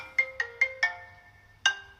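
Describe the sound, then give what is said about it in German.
A phone ringtone announces an incoming call. Four quick, bright chiming notes are followed by a short pause and a fifth chime, all fairly faint and alone. “Keine zehn Minuten später, nachdem er diese Nachricht schickt, ruft er an über Facebook.”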